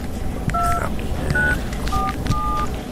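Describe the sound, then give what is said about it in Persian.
A phone keypad gives four short electronic tones, one after another, as a number is dialed. The beeps sit over a noisy, rumbling background. “خب من پاشی زنگ به این بزنم”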